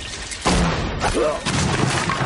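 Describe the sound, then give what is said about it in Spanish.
A body falls onto a wooden table in a snowbound Western shootout scene: a sudden heavy thud and crash, followed by a second impact and scattered knocking. “Cae sobre una mesa de madera.”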